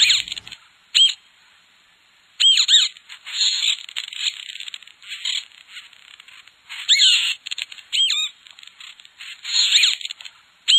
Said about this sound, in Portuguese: Ele é encontrado exclusivamente no Brasil, vivendo em pequenos bandos, aparecendo do Espírito Santo até o Paraná. Seu canto serve de chamado e localização para os demais indivíduos do grupo.